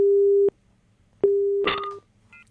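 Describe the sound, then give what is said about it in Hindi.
Telephone busy tone after a phone-in call drops: two steady, low, loud beeps separated by a pause, with a short noisy burst over the second beep. “हमारा संपर्क टूट गया है, कोई बात नहीं, हम लोग लेते हैं अगला कॉल।”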